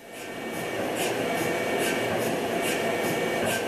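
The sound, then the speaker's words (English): Rhythmic ticking from a quieter GE Healthcare MRI machine scanning: soft, regular high clicks roughly twice a second over a steady, even whirring hum, moderately quiet throughout with no voices. “One leading MRI manufacturer, Waukesha-based GE Healthcare, has now developed essentially a less noisy MRI machine, one that sounds like this.”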